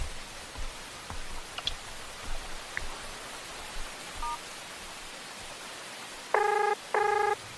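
Telephone ringing heard while a call is placed: faint scattered clicks over soft hiss, then two short, steady ringing bursts near the end, with no voices.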